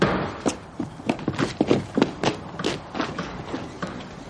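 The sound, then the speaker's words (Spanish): Footsteps go down a staircase after a slip and fall on the stairs. Many irregular thumps and light taps come at an uneven pace, at moderate loudness, with no voices. “Resbala y cae en la escalera. Se levanta y sigue bajando.”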